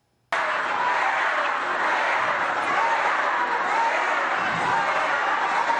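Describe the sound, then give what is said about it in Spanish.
A crowd shouting and jeering at a presidential rally in Colima, Mexico, a dense, steady roar that starts abruptly and continues without a break. “se viralizó un video donde parecía que el público estaba abuchando a la presidenta mexicana Claudia Sheinbaum durante un acto en Colima.”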